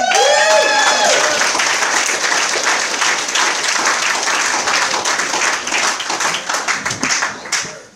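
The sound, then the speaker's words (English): Audience applause welcomes the evening's main speaker, a dense, steady wash of clapping that holds loud for several seconds, then thins and fades at the end. “Let's give it up for a warm welcome for Michael L.”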